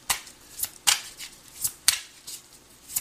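Tarot cards are shuffled and drawn, giving many quiet, crisp flicking snaps at an uneven rhythm, each a short bright burst with near silence between.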